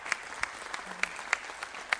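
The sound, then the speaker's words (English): Church audience applauding a search team during a service, dense steady clapping throughout with a few sharper claps standing out above the wash. “So would you give a round of applause to our search team for how”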